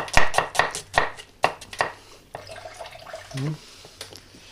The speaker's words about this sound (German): Nehmen die Zwiebeln. Die Zwiebeln solltet in schönen Scheiben geschnitten werden.